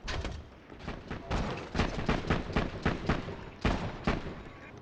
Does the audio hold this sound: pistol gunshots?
yes

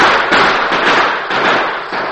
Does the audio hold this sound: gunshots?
yes

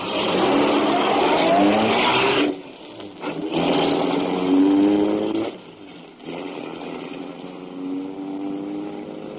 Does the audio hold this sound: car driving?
yes

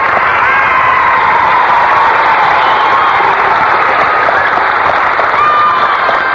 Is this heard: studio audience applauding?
yes

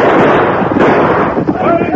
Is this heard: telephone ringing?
no

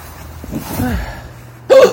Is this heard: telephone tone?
no

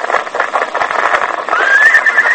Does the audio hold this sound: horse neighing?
yes

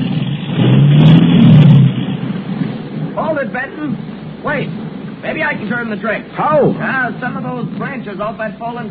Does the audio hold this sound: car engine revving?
yes

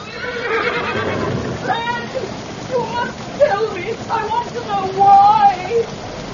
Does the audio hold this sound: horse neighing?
yes

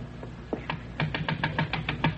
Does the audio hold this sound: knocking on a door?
yes

